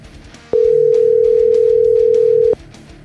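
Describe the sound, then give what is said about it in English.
A telephone dial tone sounds while a call is being placed. It is one steady, mid-pitched tone that holds evenly for about two seconds and then cuts off, with no voices over it. “So let me give Keith a call real quick and see how he's doing today”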